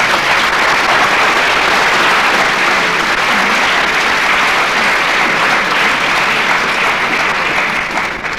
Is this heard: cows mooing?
no